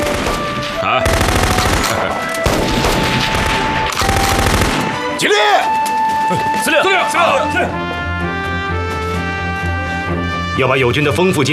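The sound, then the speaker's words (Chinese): Automatic gunfire with live ammunition during military training at a shooting range: several long, loud, dense bursts of rapid shots, then tonal sounds and voices follow. “那边是射击场，看看去。”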